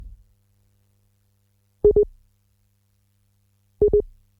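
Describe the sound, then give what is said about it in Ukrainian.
A telephone line tone after a poor, dropped connection: two short double beeps, about two seconds apart, in otherwise near silence. “Не є дуже добре з'єднання. Ну, що ж, попробуємо зараз ще раз з'єднатися з сестрою Люциною,”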